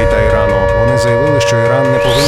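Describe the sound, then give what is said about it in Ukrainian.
An air raid siren during an alert announcement holds a loud, steady, unbroken tone for the whole stretch, with a voice speaking over it. “Увага! Увага! Повітряна тривога триває. Залишайтеся в укриттях.”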